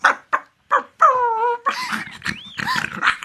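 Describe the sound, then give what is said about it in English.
A small, fierce dog gives three short sharp barks, then a drawn-out whine, followed by rougher yelps and growling whimpers, loud and with no voices present. “horrible little monster dog ran towards her.”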